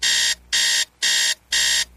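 An electronic alarm clock beeps in four evenly spaced, loud, high-pitched bursts. Each burst lasts about a third of a second, with steady gaps between them and no voices.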